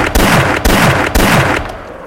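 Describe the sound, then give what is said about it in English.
Three loud gunshot blasts from a red-dot shotgun in a video game, evenly spaced about half a second apart, each a sharp boom with a rumbling tail, followed by a fading decay and no talk. “Fucking red spot shotgun is bad. Doesn't shoot like it, though.”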